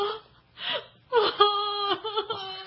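A person crying: a sharp breathy gasp, then loud, wavering wailing sobs that rise and fall in uneven bursts.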